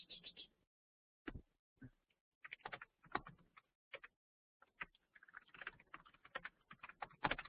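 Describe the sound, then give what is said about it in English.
Faint, irregular keystrokes on a computer keyboard arrive in short clusters separated by brief silent gaps, with a denser run of typing toward the end and no talking. “let me just type in one thing. Oops. How do I do this?”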